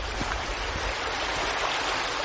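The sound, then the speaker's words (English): A small brook flows with a steady, even rush of water that stays at a constant level throughout, with no voices or other sounds. “Glenn makes a detour to admire a nearby brook. This is a beautiful little sight down here.”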